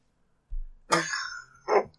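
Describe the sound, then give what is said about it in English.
A short coughing fit: three rough bursts of coughing and throat clearing, the first low and brief, the second longer and harsher, the third short and sharp. “Pardon me. So I put me in a little coughing fit.”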